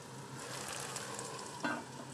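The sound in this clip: Butter sizzles in a cooking pot of boiling food, a faint, steady crackling hiss that runs evenly throughout with no talk.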